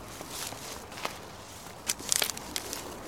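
Footsteps crunch on rough outdoor ground as someone walks a little way down a slope on old seabed. Soft scattered steps give way to a denser burst of crunching near the end.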